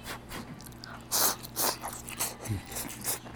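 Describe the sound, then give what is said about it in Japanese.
Chewing beef together with still-crisp onion and lettuce gives a faint series of crunchy, crisp bites in an irregular rhythm, with no talk over it. “この玉ねぎとレタスのまだシャキシャキが残っているのに、この牛肉が一緒に噛むとね、肉汁がジュワーッとこう野菜にも出てくるんですよ。”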